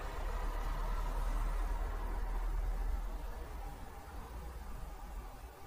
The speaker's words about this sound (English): Car drives through.